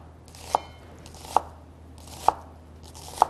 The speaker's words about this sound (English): Cut through the middle one more time. And this is a great way to chop them. Just much faster.